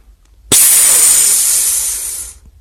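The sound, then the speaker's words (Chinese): A valve hisses as a capsule pod vents air. One loud, steady hiss starts abruptly, holds for about two seconds, then eases off and fades. “旁边的胶囊舱传出阀门活动的抽气声，”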